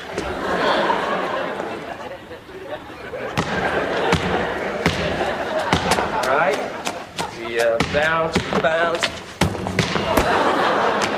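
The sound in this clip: A basketball bounces and thuds during casual shooting practice ahead of a foul shot, with many sharp, irregular impacts under steady conversation among the people there.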